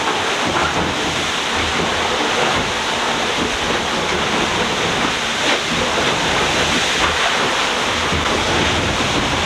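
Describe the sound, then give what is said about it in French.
A wave washes over a boat deck as the boat speeds through the waves, making a loud, continuous rushing roar of water mixed with wind noise. The sound stays steady and dense throughout, with no voices. “Ça, c'est quand on se plante un peu, mais pas trop fort. Donc c'est une vague qui passe par-dessus le pont.”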